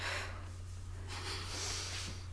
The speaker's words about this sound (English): Now take a big, deep breath with me.